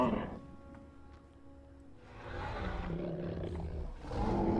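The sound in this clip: A giant ape roars in a video game, a long, rough, growling roar that swells and holds loudly, then surges again into another deep roar at the end.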